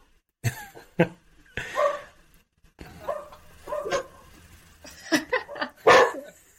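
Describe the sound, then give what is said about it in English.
Two pet dogs bark in a series of sharp, irregular barks, some clipped and some more drawn out, with uneven gaps between them. “that's my dog barking. Sorry about that. Both our dogs are going.”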